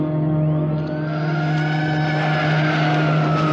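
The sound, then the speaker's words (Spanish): A police car arrives on a street, its engine a steady drone under a high squealing tone that sweeps upward early on and then holds, with no voices. “Llega un coche de policía e inmediatamente una ambulancia traslada el cuerpo de Sam al hospital.”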